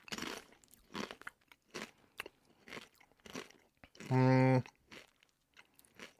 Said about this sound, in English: Put it in your mouth. It's in his mouth. He's chewing it. That tastes like goddamn ketchup.